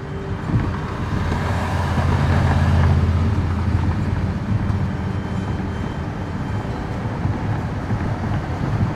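A car driving on the road from Florencia toward San Vicente del Caguán gives a loud, steady low rumble of engine and tyre noise that stays even throughout.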